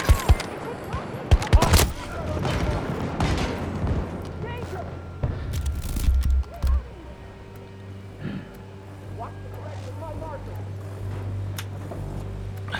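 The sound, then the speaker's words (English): Gunfire in a military shooter video game: sharp bursts of shots cluster in the first two seconds and again around six seconds, then a lower steady hum carries on, with voices heard at times. “Got shot there. Shot from a long distance.”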